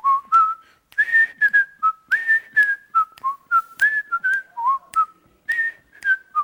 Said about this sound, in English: I just like to hear myself whistle, okay.